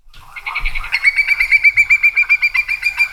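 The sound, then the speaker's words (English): A migratory Hudsonian whimbrel calls with a rapid, rippling series of many clear whistled notes at a steady high pitch. The notes grow louder at first, then run evenly to the end, with no other sounds. “That is the call of a whimbrel,”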